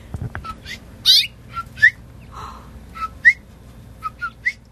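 A mother bird at her nest gives a series of short, high chirps and whistled notes, spaced irregularly over a few seconds, with no talking.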